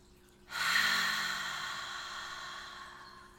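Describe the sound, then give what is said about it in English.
A long, slow, deep breath drawn in through the nose starts after a short quiet moment as a breathy hiss that peaks early and then gradually tapers while the inhale continues. “let's take a nice, long, slow, deep breath in through your nose.”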